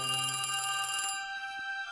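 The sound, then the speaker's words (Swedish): A bell rung from the king's bedchamber to summon his adjutant rings out brightly and metallically for about a second, then stops abruptly and leaves a faint, fading tail. “då kunde han ringa på adjutanten.”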